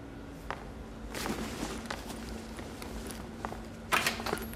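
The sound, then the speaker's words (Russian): Footsteps of two people walking out together in a film scene, soft scuffing steps over a steady low hum, with a sharper, louder knock of sound near the end. “Они вместе выходят. Дверь.”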